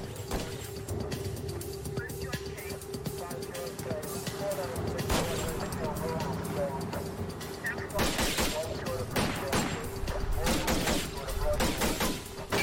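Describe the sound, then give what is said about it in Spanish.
Rifle gunfire breaks out during a police stop of a pickup on a roadway. Several sharp, loud cracks stand out over a steady mechanical hum and background noise. “Cuando los oficiales abordan la camioneta, el conductor saca un rifle y comienza a disparar.”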